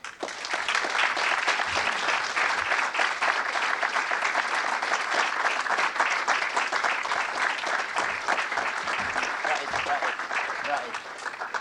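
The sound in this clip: Sustained applause from an audience welcoming the head of the White Helmets, the Syrian rescue group. The clapping is dense and steady throughout, with voices mixed in.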